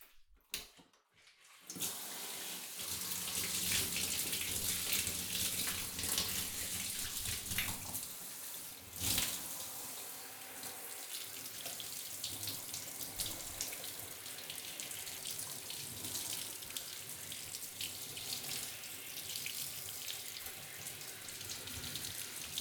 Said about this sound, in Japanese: 泡を流します。髪から流しますから、目を閉じててくださいね。